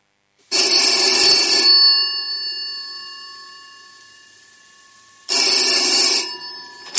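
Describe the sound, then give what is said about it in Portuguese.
A telephone ringing with an electronic ringtone: two loud, bright bursts of ringing with a lingering tonal decay between them, and a third burst just beginning at the end. “Eu quero saber quem é que está a ligar.”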